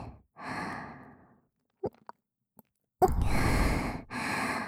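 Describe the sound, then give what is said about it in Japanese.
Deep breaths drawn in and let out: a long breathy exhale, a pause with a few faint clicks, then two strong, rushing breaths close together near the end. No talking. “息を大きく吸って、吐いて、力を抜いて、”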